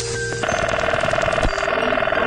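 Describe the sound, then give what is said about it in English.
A 1970s telephone rings with a rapid, trilling bell. The ring sets in just after the start and continues loudly and steadily to the end, with no talk. “Here's a collection of telephone sounds of the 1970s.”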